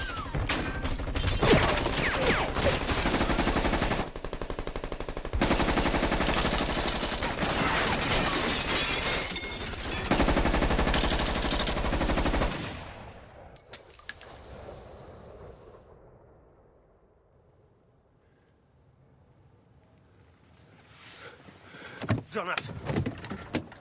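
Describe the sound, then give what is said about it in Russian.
A machine gun fires at a jeep, and bullets smash monuments along its path. Dense, loud bursts of rapid firing and shattering fill the first half, then thin out into scattered clatter and near quiet before a few sharp impacts return. “Пулемет начинает стрелять по джипу. Пули разбивают памятники, что на пути.”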